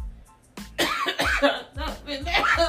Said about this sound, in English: Oh, she's choking. Calm down. Catch your breath real quick and then you can answer.